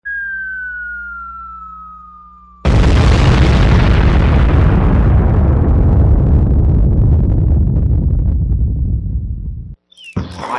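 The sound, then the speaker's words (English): A bomb-drop sound effect: a thin descending whistle glides downward, then a loud explosive boom bursts in and rumbles with heavy low-end noise, decaying slowly over several seconds before cutting off. “I'm going to throw a bomb drop sound effect right there.”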